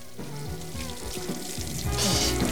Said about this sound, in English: He walks over to the sink and tries to wash out his nose.